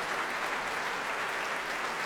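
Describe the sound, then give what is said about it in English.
Dense, steady applause from a promenade audience in a concert hall, the Royal Albert Hall, at the close of an opera act by Tippett. The clapping is continuous and even throughout, with no voices standing out. “All the singers and players on their feet for the applause of the promenaders here in the Royal Albert Hall.”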